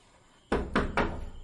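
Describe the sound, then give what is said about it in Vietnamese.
Three loud, evenly spaced knocks on the courtyard door of a Taoist temple. Each is a heavy, resonant thud, heard alone over a faint background. “Cửa sân của đạo quán có tiếng gõ cửa vang lên.”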